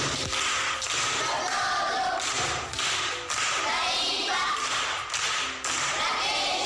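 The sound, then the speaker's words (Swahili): Primary school children from Bunda, Mara, Tanzania clap together. The clapping is a busy patter marked by repeated heavier accents at fairly regular intervals. “Makofi kwa shangazi.”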